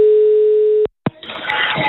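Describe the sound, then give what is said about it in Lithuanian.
A telephone dial tone heard while a call is placed. A steady, loud single-pitch hum holds for under a second, cuts off abruptly, and gives way to a click and then rougher line noise. “nuo Ramunės su šeima tuoj perduosim linkėjimus Vidai, jeigu tik pavyks jai prisiskambinti”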